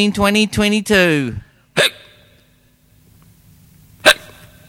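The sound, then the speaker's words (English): Hiccups from a man whose record-long hiccup attack ran from 1922 to 1990: a quick cluster of voiced, throaty hiccups followed by two separate sharp hiccups with quiet pauses between. “he holds the world record for the longest attack of hiccups from 1922 to 1990. That's a long time, let me tell you that. All right, let's hear this classic”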